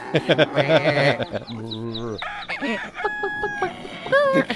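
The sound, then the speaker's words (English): Farm animal noises in a movie scene set in a foreign country: layered rooster crowing and goat-like bleating, loud and continuous, mixed with other sounds. “How about constant farm animal noises?”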